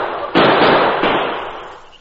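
A single loud gunshot in an old-time radio drama, a sharp crack that opens into a long, roaring decay fading out over about a second and a half.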